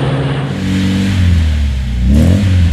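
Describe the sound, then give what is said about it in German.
A 1970 Opel Manta A car engine accelerates with a loud, steady drone. The engine note sags briefly, then climbs again as it revs up near the end. “Und wann testen Sie ihn? Opel Manta, weil man was vom Fahren versteht.”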